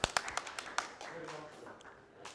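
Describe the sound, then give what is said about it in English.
A short burst of applause for a child performing in a play: a handful of sharp, evenly spaced claps that quickly thin out and fade, with faint talk afterwards. “Round of applause for Jesse.”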